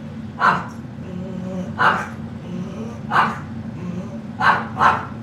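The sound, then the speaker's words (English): Old pug eating noisily: five sharp snuffling, snorting bursts spaced across a steady low rumbling noise. “I have to listen to this old pug every time he eats. This is what he does when he eats. Just take a listen.”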